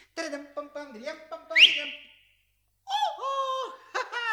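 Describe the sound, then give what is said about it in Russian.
Someone whistles from under an umbrella in a staged scene. Short whistled notes include one sharp, upward-sliding whistle, then a pause before a few more sustained, steady tones. “Из-под зонта раздается свист.”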